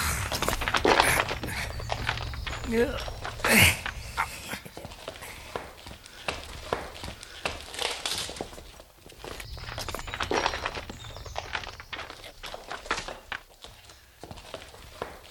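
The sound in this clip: Footsteps crunch and scuff while walking into a cave, through its entrance and along a low rocky passage. Many irregular steps continue throughout, moderately loud, with no talking.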